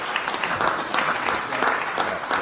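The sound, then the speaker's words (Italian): Audience applause at an Italian public event honoring a senator: dense, steady clapping from many hands that holds at an even level throughout without pause. “Ringraziamo con un grande applauso di nuovo il senatore Centinaio di essere con noi.”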